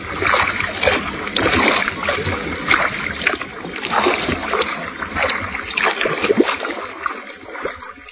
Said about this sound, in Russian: Пеппи энергичными взмахами весел направила лодку к берегу